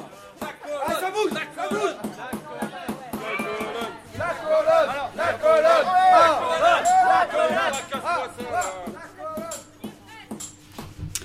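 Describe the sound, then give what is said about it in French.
An impatient crowd chanting and shouting slogans, a mass of overlapping raised voices that swells toward the middle and then eases off, with sharp scattered clicks throughout. “La foule s'impatiente. Ceci dit, elle chante, elle pousse des slogans. Elle veut le voir tomber.”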